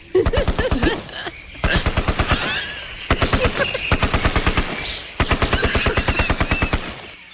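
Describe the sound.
Loud, rapid automatic gunfire from a firearm comes in four bursts of many shots each, with short pauses between bursts.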